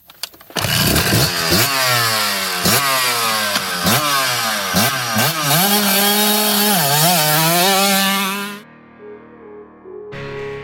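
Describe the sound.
Electric whine of a Stark Varg electric motorcycle, a loud high-pitched motor note that swoops up and down in many quick revs, then drops away near the end to a quieter hum.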